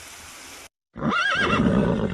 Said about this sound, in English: On the shore, horses walk at a steady pace.